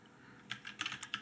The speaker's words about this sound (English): You can see where it says backup now. I just typed that in.